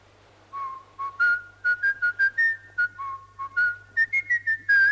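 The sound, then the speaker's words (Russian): A person whistles a tune: many short, clear notes in a bouncing rhythm, rising higher toward the end, over a faint low hum. “Что ты свистишь?”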